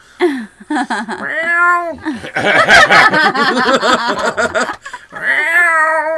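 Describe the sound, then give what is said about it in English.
A cat hiding under a blanket meows several times, with drawn-out mid-pitched cries near the start and end. People talk and laugh over the sounds in between. “That was the cat right there. She's hiding under the blanket.”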